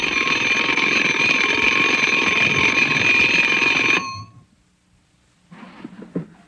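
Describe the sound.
A morning alarm clock rings with a loud, continuous, buzzy tone for about four seconds, then stops abruptly. A short silence follows, and then softer, scattered noises.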